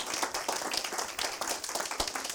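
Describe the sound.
Audience applause welcoming two guests, one of them a doctor: many quick, crisp hand claps overlapping into a lively, continuous patter at fairly loud level throughout.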